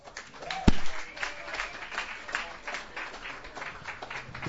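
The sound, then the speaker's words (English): Applause from the audience at a Sunday night open mic as a performer is welcomed, moderate, steady clapping with one sharper clap near the start, holding evenly for several seconds. “Please put your hands together. This is Dave Martin.”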